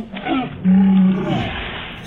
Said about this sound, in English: He was a zombie too, but this is a sea lion.